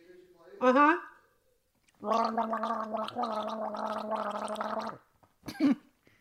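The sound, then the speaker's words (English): A voice imitates gargling with a long bubbling, rattling stretch of about three seconds, framed by short vocal bursts before and after. “Do you want me to do gargling noises?”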